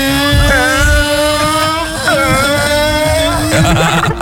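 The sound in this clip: Engine roar of a car racing in the video game GTA 5: a loud, steady, droning whine with strong harmonics and a slightly wavering pitch, continuous throughout.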